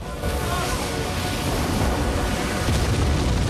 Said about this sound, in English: The missile tears through the airship, creating a series of explosions.